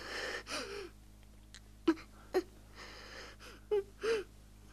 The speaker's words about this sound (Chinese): 不哭，不哭啊，乖孩子，不哭，不哭啊。